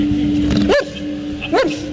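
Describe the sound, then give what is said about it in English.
A puppy dog barks twice, each a short, sharp yip with a quick pitch sweep, separated by under a second, over a steady low hum. “It's a good puppy dog.”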